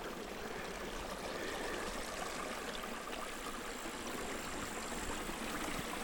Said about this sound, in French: Je m'éloigne de ce petit cours d'eau.